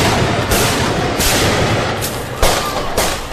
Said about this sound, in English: These masked men have just shot a police officer. Moments later, they make their escape.